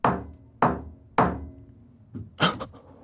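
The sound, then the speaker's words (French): Knocks inside an empty radio building on a Sunday: three evenly spaced, sharp knocks, followed by a couple of softer, quicker thumps. “Esprit, si tu m'entends, tape 3 coups.”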